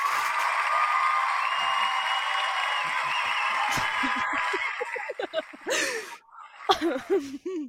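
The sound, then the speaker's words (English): A live studio audience cheering and applauding in a dense, loud wash for about five seconds, which then drops away into scattered talk and laughter. “I'm sorry. I can't with the studio audience. I can't do it. Yeah, we have a live studio audience.”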